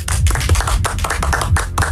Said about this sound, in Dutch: Wat een tam applaus, zeg.